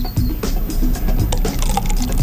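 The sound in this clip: Liquid poured from a plastic container, the crackle and flex of the plastic louder than the liquid itself: a steady, dense rustling wash lasting about two seconds with no pauses.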